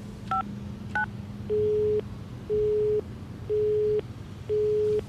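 Telephone busy signal from an unanswered call: two short keypad dialing beeps, then four evenly spaced steady tones of equal length over a low background hum.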